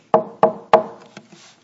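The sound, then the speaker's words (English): Knocking on a house door: three sharp, evenly spaced raps, followed by two much fainter taps that trail off. “So he goes to the house and he knocks on the door.”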